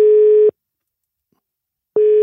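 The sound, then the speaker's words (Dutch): A telephone ringback tone sounds while a call is placed: a loud, steady, mid-pitched beep cuts off, followed by a long silence, then the same beep starts again. “Gaan we Aster eens bellen?”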